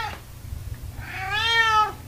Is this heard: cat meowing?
yes